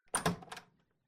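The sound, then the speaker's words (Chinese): A door being opened after a wait: a brief burst of several clunks and rattles, loud at first and trailing off within about a second. “你刚刚在干什么呢？怎么这么半天才开门啊？”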